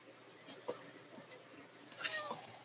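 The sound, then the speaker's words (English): An unhappy cat meowing: one strained, whiny cry near the end, with softer stirrings earlier, all faint over a low hiss. “That is not a happy cat, actually.”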